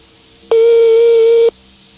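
Telephone ringing tone on an outgoing call: a single steady, clear mid-pitched electronic tone lasting about a second, starting and stopping abruptly against a faint line hiss.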